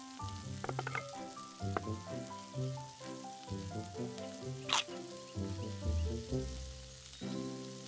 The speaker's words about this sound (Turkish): Köftelerin bir yüzü pişti şefim. Çeviriyorum.